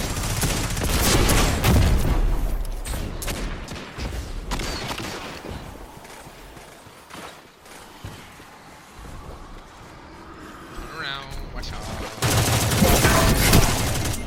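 Gunfire in the video game Destiny 2: rapid bursts of shots and booming impacts, loud at the start, dropping to sparser fire in the middle, then surging again at the end.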